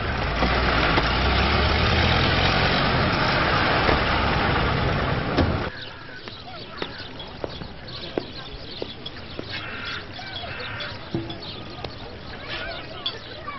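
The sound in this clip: A car engine runs as passengers ride, with a loud, broad steady rumble that drops to a quieter hum, scattered with small ticks. Voices are faintly present.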